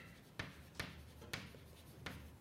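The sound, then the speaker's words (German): Writing down an equation: four sharp, faint taps of the writing tool at uneven intervals over a quiet background. “Also schreiben wir es vielleicht hin.”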